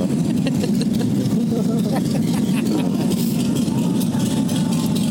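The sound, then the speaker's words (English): A motorcycle engine warming up for a bike show, giving a steady low idling rumble that holds even and unbroken from start to finish. “They gotta warm the bike up a little bit.”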